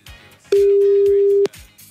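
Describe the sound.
A telephone line rings on an outgoing call, one steady mid-pitched tone lasting about a second, loud above faint voices in the background.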